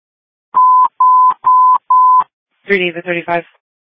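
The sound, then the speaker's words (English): Touch-tone telephone dialing as a dispatcher calls a caller back: four steady, evenly spaced beeps of equal length, followed by a brief spoken voice. “Can you hang up with the caller? I'll call them directly.”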